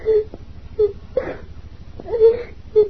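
Several short moaning wails and whimpers from a person in pain inside a castle, part of an audio drama, rising and falling in uneven bursts.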